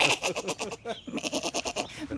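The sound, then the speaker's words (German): A small goat bleats in a wavering, rapidly pulsing call. It breaks off briefly near the middle, then a second quavering bleat follows. “Es hat eine lustige Sprache, so eine kleine Ziege. Mhm. So klein und schon so meckerig.”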